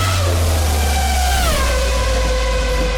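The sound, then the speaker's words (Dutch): A race car speeds past, its engine a loud, steady whine that drops in pitch midway as it goes by, over constant roaring noise. “Dat was hem even, de racewagen die voorbij schoot.”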